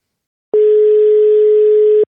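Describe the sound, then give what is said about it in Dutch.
A telephone ringing tone on a call to Spain: one steady, pure, mid-pitched tone held for about a second and a half, alone, starting and stopping cleanly with silence on either side. “Misschien wel even naar Spanje bellen.”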